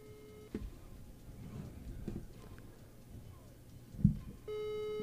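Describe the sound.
Telephone call connecting tone, faint and steady with a buzzy edge, sounds briefly at the start. Low background noise with a few soft knocks follows, and the tone returns for the last half second.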